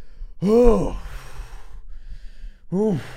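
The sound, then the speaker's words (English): Two voiced exhales through the mouth, made by a person demonstrating the breath: short breathy 'hah' sounds that rise then fall in pitch, the first longer, with quiet breath noise between them. “this sound is only a sound of an exhale from your mouth”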